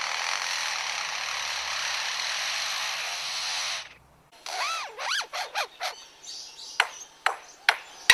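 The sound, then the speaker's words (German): A blackbird imitates a mobile phone ringtone with a run of quick, looping whistled notes and then several short, bright pings. These follow a few seconds of steady rasping noise. “Und welchen Sinn ergibt der Klingelton aus der Amselkehle nun oder der Akkuschrauber-Sound bei dem Leierschwanz?”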